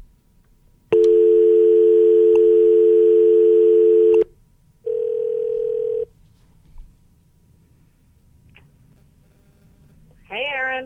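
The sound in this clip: Telephone tones on a line as a call is placed: a long steady tone lasting about three seconds, a pause, a shorter steady tone, a couple of faint clicks, then a voice speaking briefly at the end.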